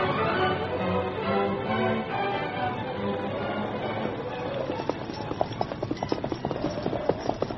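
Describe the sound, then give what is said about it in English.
Hooves of ponies being led in a hurry clip-clop in a quick, steady rhythm. The many hoofbeats grow sharper and more distinct in the second half, over a continuous background rumble. “We'll lead the ponies.”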